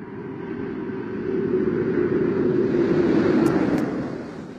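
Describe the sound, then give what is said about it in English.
Deep roar of a space shuttle descending toward the runway to land, a broad steady rumble that swells in loudness after the first second and holds strong without voices. “It is approaching the runway, coming down. Things looking good. There's a thermal camera on the shuttle focused in on it. We can hear that the shuttle is coming in quite closely.”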